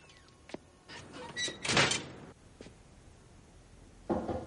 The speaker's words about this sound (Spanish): entra y cierra la puerta